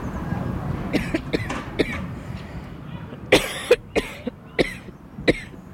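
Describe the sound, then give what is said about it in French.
A woman with a lingering post-Covid cough coughs in a series of sharp, dry bursts, scattered at first and then clustered closer together, over a low, steady background. “Oh, pardon, excusez-moi, ça m'arrive encore beaucoup depuis mars. Excusez-moi. Ah ouais, la toux, j'en ai marre.”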